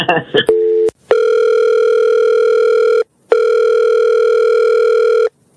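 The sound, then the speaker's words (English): A telephone call being placed: a few short tones, then a loud, steady phone tone that holds, breaks off briefly and resumes for a second long stretch. “Well, we're going to call her right now.”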